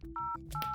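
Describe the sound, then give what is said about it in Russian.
Telephone keypad dialing tones on a picked-up phone line: two short, bright dual-tone beeps sound over a steady low dial tone that runs throughout. “Но со временем они поднимают трубку и слышат тон вызова.”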